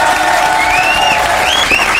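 Audience applause: loud, continuous clapping from a crowd, with some cheering and whistles rising above the even wash of hands throughout.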